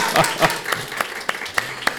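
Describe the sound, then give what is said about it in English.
Applause from an audience during a talk at a community center: a steady run of distinct claps at fairly even intervals, moderately loud and with no voices. “Can we give Catherine Richard a round of applause for trusting me?”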